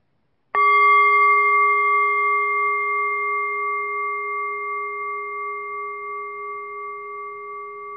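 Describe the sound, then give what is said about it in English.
A meditation bell is struck once to open a Buddhist meditation session. The clear, sustained tone carries steady harmonic overtones and decays slowly over several seconds, heard alone without voices. “Please close your eyes gently with the sound of the bell.”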